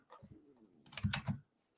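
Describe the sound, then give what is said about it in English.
Computer keys and buttons click in a quick, faint cluster of several taps while someone searches for a basketball game result, with a softer low rumble just before. “searching, clicking the wrong buttons”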